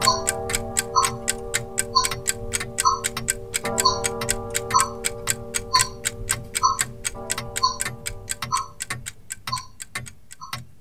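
A new wall clock ticks steadily: many evenly spaced, crisp ticks run through the whole recording over a sustained held tone, and the tone thins out near the end while the ticking continues.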